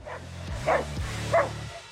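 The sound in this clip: A dog barks while chasing a deer, giving a couple of short, muffled, fairly faint barks over a steady low drone.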